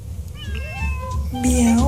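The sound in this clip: A cat meows in a brief, nasal call lasting under two seconds. Its pitch bends upward, then settles into a steadier, higher tone at the end.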